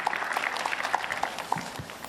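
Applause from young people and athletes honouring someone at an event: a dense, steady patter of many hands clapping that continues unbroken for the whole short stretch.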